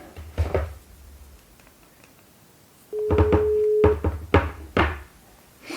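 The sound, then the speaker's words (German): A telephone call being dialed: a few knocking clicks and thumps, then a steady tone lasting about a second, followed by more clicks and thumps. “Und jetzt versuchen wir mal, den Olympiasieger im Speerwerfen, Thomas Röhler, anzurufen.”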